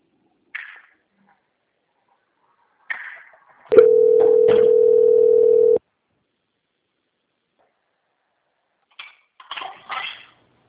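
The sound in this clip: A telephone ringing tone plays while a call is transferred: one steady, mid-pitched tone lasting about two seconds, with brief clicks and short snatches of voice before and after it.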